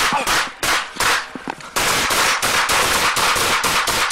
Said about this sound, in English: Seven shots fired, subject down.